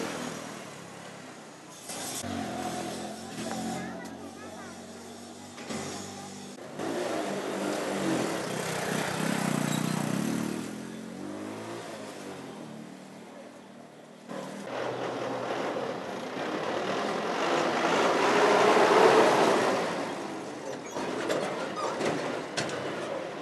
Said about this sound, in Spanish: Es así como se escucha esta carrera, llena de matices, de escenas buenas y malas, que atraviesa desde el barrio Andalucía hasta lo más recóndito de la isla o el Popular 2.